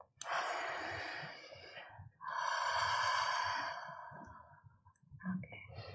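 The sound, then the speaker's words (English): Breathy 'ha' exhalations through the mouth during a guided releasing exercise: two long, airy sighs, each lasting about two seconds, followed by a softer breath. “exhale through the mouth with the sound ha”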